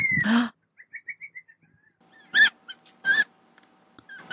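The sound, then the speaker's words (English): Fennec fox yipping: a rapid run of about six short, high, thin yips, then two louder, harsh, raspy cries with gaps between them. “Oh, number one, the fennec fox. Okay. Absolutely. Until they open their mouth. Yeah. Oh, God. Have you heard them? Yeah. I saw some at the Detroit Zoo. So cute, but they sound like monsters.”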